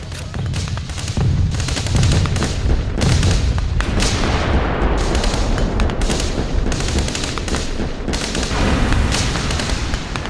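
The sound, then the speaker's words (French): An enemy artillery barrage pounds World War I trenches with loud, overlapping booms and bursts of rapid gunfire that continue without a break, forming a heavy, rumbling wall of explosions. “Soyez prêts les gars, leur préparation d'artillerie est finie, ils vont sortir.”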